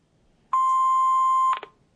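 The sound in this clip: An answering machine beeps before the next message, a single steady mid-pitched tone lasting about a second, followed by a brief soft click, alone against near silence.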